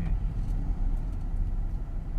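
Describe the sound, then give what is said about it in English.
Road traffic passing: a steady, low rumble of vehicle engines and tyres that stays at an even, moderate level throughout, with no single vehicle standing out. “yesterday there was hardly any traffic this way, and today we've got loads of traffic this way”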